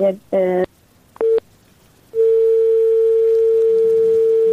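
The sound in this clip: A telephone tone follows a dropped call with a guest: a couple of short tone bursts, then a steady, unbroken mid-pitched dial tone that hums on alone.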